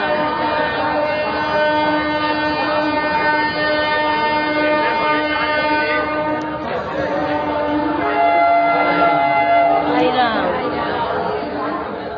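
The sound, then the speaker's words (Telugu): A busy railway station crowded with pilgrims fills with constant crowd chatter over a loud, sustained droning rail noise. Many overlapping voices blend into a steady din. “Railway station.”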